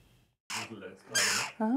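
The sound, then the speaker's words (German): Hungry jackdaw chicks call noisily in harsh, raspy bursts: several loud, ragged cries, ending in a brief harmonic squawk. “Die Dohlenkinder machen ganz schön Rabatz. Sie haben Hunger, jede Menge Hunger.”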